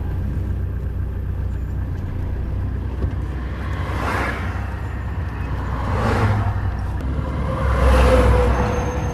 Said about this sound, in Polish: I jedziemy w korku paskudnym.